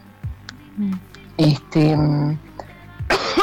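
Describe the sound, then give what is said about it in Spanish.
Coughing from someone with a slight cough amid feverish illness: a few rough, throaty bursts with a voiced, rasping quality, fairly loud and uneven, with short gaps between them. “disculpen, estoy con un poco de tos.”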